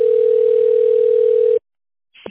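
A steady telephone line tone follows a dropped call to a company switchboard. The single mid-pitched tone holds level for about a second and a half, cuts off into silence, and a brief faint noise follows at the end.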